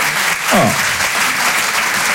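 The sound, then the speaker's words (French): Audience applause for a couple married 51 years: dense, steady clapping fills the whole stretch, with a brief voice rising over it near the start. “51. Oh, on peut les applaudir. 51, c'est beau ça, waouh.”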